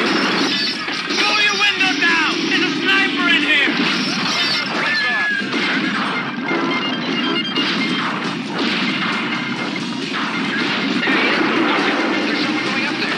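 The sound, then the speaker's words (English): Gunshots in the trailer for the film Targets: loud cracks and shattering crashes packed densely together, with shouting voices over them from start to end. “Oh, there's somebody shooting out here! In the window!”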